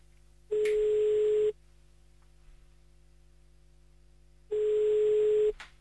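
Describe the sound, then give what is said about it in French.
A telephone rings on the line during an outgoing call: two steady single-pitch tones, each about a second long, separated by a few seconds of quiet line hum. “C'est parti, on appelle, on va vérifier si Saint-Nicolas est bien passé chez eux.”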